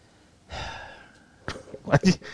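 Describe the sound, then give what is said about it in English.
A deep breath is drawn before reading aloud: a long, soft inhale, then a pause and a few short, louder vocal bursts near the end. “You took a deep breath on that one. Well, you really did take a deep breath on that one.”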